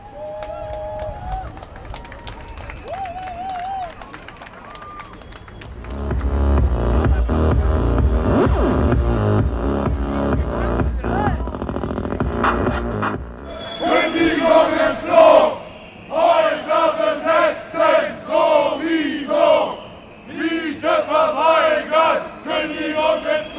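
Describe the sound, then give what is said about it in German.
A crowd of about 2,500 people fills a demonstration against forced evictions in Berlin Kreuzberg. A dense, loud wash of voices gives way to rhythmic bursts of shouting, repeated in a steady pattern. “Circa zweieinhalbtausend Menschen beteiligten sich in Kreuzberg am 25. Februar an einer Demonstration gegen Zwangsräumung.”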